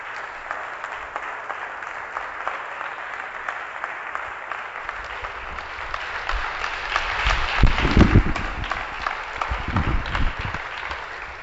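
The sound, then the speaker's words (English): Congregation clapping in church, a dense, steady patter of many hands that swells a little louder in the second half, with a few heavier low thumps mixed in near the end. “Right, folks? Say yes and clap if it's the truth.”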